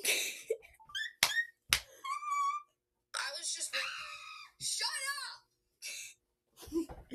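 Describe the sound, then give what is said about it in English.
A child screams on cue in a playful game, letting out several short, high wails and cries broken up by bits of talking and pauses. “Scream, and then I'll go, shut up. Okay, but not too loud, okay?”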